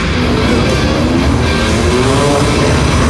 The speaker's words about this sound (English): We got 3 dudes out here on dirt bikes. We got a ramp. Oh, dude's ramping.